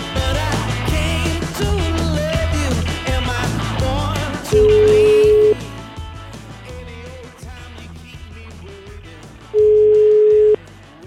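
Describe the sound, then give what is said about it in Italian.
A telephone call being placed, the line ringing with two long, steady mid-pitched tones about five seconds apart, each lasting about a second, sounding over loud, continuous music. “Io una telefonatina gliela farei a questo signore, vediamo come reagisce.”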